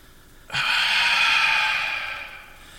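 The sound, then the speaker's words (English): A voice imitates a long, breathy exhale: a steady hiss of air that starts abruptly, holds for about two seconds, then fades slightly. “Or it used to also be like a really like breathy exhale.”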